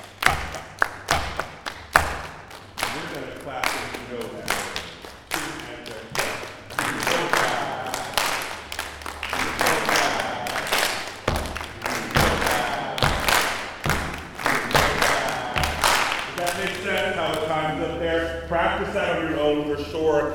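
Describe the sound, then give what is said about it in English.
A choir claps triplet rhythms during a rehearsal. Sharp hand claps come in a repeating, regular pattern, with many claps in a row and talking heard over them at times. “You clap the triplets. Ready? And clap.”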